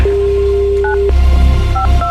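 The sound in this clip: A telephone is dialed to retry an unanswered call. A steady tone plays, then three short keypad beeps follow, clear and loud over a low rumble.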